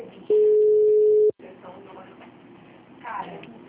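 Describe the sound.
A phone call tone sounds while a call is being placed: a single steady, unbroken tone lasting about a second, then cuts off and talking follows.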